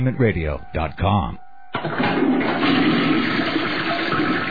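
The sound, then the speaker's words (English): Toilet flushing with a loud, rushing, gurgling surge of water that starts abruptly after a brief spoken phrase and continues steadily to the end. “Hear that? That's the sound of nearly 3 million American jobs being flushed down the toilet.”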